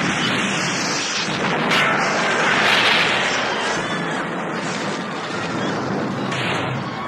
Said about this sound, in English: As soon as she says it, the entire restaurant is rocked by a bomb blast.